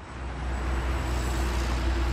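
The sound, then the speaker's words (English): Traffic moving on roads in Los Angeles: a steady, dense wash of road noise with a low rumble underneath and no single vehicle standing out. “Hear that? That's the sound of traffic moving in Los Angeles.”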